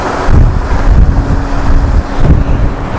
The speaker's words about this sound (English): oh my goodness, the waterfall up there is massive.